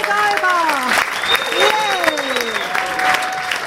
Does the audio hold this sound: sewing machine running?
no